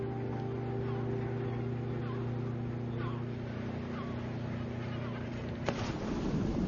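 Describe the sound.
Small motor launch out on ocean waves: a steady, droning engine hum runs beneath broad rushing water and wind noise, with a sharp knock near the end before the wash surges louder.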